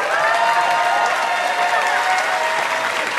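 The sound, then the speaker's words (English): Loud, steady applause from a comedy show audience greeting the night's final comic. The clapping forms a dense, unbroken wash that stays at an even level throughout. “Please make some noise for Shane Moss.”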